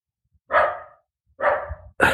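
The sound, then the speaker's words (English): A pet dog barks at home, three sharp, fairly loud barks separated by short silences, the last one cut off at the end. “the dog's going nuts. Come here, Sadie. Be nice.”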